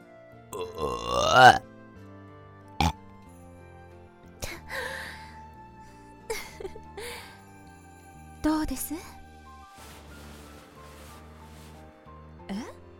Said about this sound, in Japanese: ゲップじゃないかと。